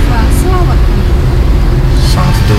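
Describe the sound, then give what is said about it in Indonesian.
Vehicles queue at a petrol station on Panji Suroso, with a loud, continuous rumble of engines and traffic that stays steady from start to end. “Ini kondisi antrian SPBU Panji Suroso.”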